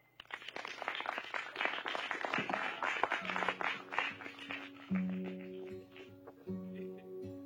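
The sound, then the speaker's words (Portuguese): Audience applause greets a performer introduced on stage as a blonde singer from Hollywood: dense, crackling clapping for the first few seconds, then fading as sustained musical tones begin. “Uma salva de palmas para ela, pessoal.”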